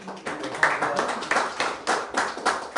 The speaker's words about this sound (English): Let's give a round of applause at this